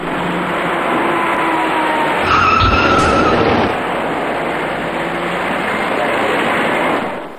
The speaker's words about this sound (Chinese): 转身过后，这位骑车人被一辆快速开来的小客车撞翻在路面上